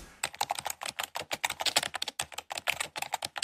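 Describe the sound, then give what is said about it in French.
Typing on a computer keyboard: many quick, crisp key clicks in an irregular, busy rhythm, moderately quiet and continuing without pause throughout. “Voilà, et ça tape et ça pianote.”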